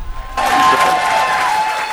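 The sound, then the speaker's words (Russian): An applause sound effect played on a quiz show after a correct answer bursts in abruptly after a brief quiet moment, then continues as dense, steady clapping to the end. “Ну, нам остается поставить только аплодисменты.”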